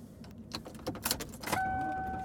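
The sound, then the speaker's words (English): Metallic jangling and scraping as a key fumbles at a car door lock, a run of irregular clinks and rattles, after which a steady electronic tone sets in and holds to the end. “Couldn't get the key in the lock. It always feels like it's an enormous amount of time when I can't get the key in the lock.”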